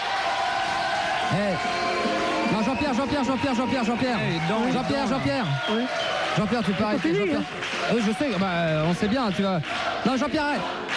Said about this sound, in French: Jean-Pierre, arrête la musique, écoute le public, écoute. T'entends Jean-Pierre?